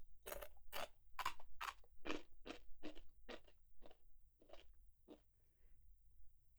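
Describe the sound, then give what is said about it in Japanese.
Crisp crunching of Japanese rice crackers being bitten and chewed: many sharp, separate crunches in a steady rhythm, quiet overall and thinning out toward the end. “こうやっておせんべいだけ食べてもいいし、”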